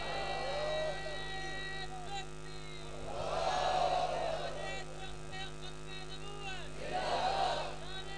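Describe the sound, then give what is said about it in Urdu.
A large rally crowd chants slogans, the massed voices rising in two loud surges over a constant electrical hum, with a voice speaking more quietly between them. “مجمع اتنا بڑا ہے، نعرے کی آواز لاہور تک تو کم از کم جانی چاہیے”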